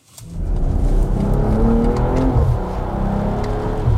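Engine sound of a BMW M440i Gran Coupé with a petrol engine, building quickly at the start into a loud, steady, deep drone that holds throughout with no voices.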